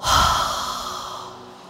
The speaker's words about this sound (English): Let's take a deep breath in. And then breathe out through the mouth.